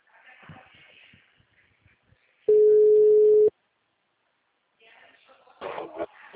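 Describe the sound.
A telephone tone after a dropped call: one steady, low-mid electronic tone held for about a second, starting and stopping abruptly between stretches of talk.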